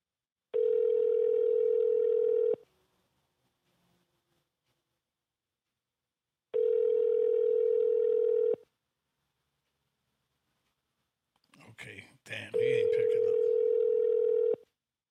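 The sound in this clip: A phone call rings out unanswered: the ringback tone sounds three times, each a steady two-second tone followed by silence. A short burst of noise comes just before the last tone.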